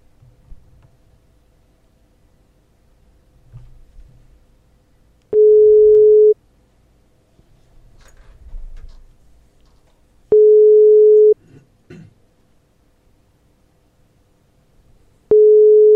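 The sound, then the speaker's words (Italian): Ringback tone heard while placing a phone call: three steady, mid-pitched tones of about a second each, evenly spaced several seconds apart, with faint low noise in the gaps and no talking. “Andiamo a chiamarlo. Vediamo se ci risponde.”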